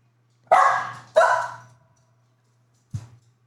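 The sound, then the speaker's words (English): Dogs bark three times over a low, steady hum. Two loud barks come close together, followed after a pause by a shorter, fainter third. “Hi, dogs.”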